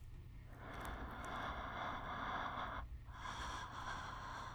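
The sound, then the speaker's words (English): Shallow breathing made of two long, airy breaths separated by a brief pause, soft and steady over a low constant hum. “Your breathing is shallow.”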